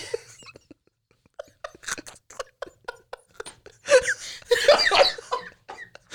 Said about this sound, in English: You made me cough.